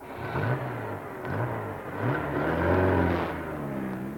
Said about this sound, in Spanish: Cuando de pronto, un coche inoportuno se acercó a la finca.